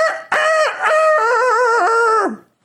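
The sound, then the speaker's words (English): A big, aggressive rooster crows in an urban neighbourhood in Puerto Rico: a short opening note, then one long, loud, harmonic call drawn out over about two seconds with wavering segments and a falling tail at the end. “that little baby chick grew up to be this giant, badass, mean rooster named Flower.”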